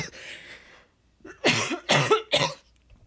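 Three sharp, loud coughs in quick succession after a blueberry from a smoothie went down the wrong way, preceded by a softer rough breathy sound, with quiet pauses between bursts.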